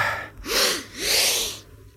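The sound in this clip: Two deep exhalations during a guided breathing exercise, each a loud, breathy rush of about half a second, separated by a short pause, with no talk.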